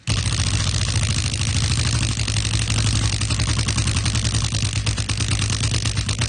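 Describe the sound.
A prize wheel spinning after a hard push, giving a loud, rapid, continuous ticking that runs for about six seconds over a steady low hum.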